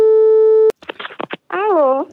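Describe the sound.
Telephone call tone on a prank call in Brazil: one steady, loud tone sounds alone for under a second, followed by voices talking.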